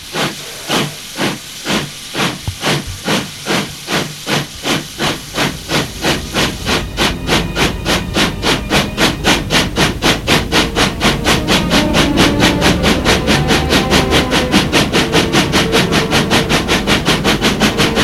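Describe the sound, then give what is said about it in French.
A steam train bound for Paris chuffs out of a station, its rhythmic exhaust beats starting slow and distinct, then speeding up into a rapid, loud, steady chugging with constant hissing steam. “Là, elle a pris le train pour Paris en première classe.”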